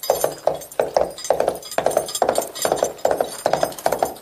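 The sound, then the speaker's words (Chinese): Coconut shells mimic horse hooves in a sound-effects demonstration by two teachers for children: many hollow, woody clip-clops in a steady galloping rhythm of quick paired strikes, clear and evenly spaced. “刘老师现在跟姜老师来给你们示范一下马蹄子声。”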